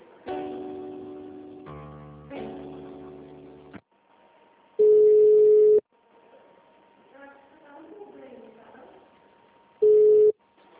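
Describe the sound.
Telephone line tones during a call transfer: a brief melodic chime passage gives way to a thin, steady tone, broken twice by loud, long, level beeps.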